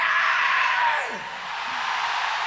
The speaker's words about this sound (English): you can all do a primal scream, which is,